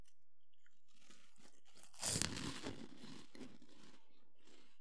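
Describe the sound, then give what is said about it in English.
Fiery lime-flavoured puffed snacks crunch as someone bites and chews. A few crisp, quiet bites build to one louder burst of crunching in the middle, then fade into softer chewing. “I don't think I'm going to like them, but I'm going to try them. All right, here we go. Fiery Lime Puffs.”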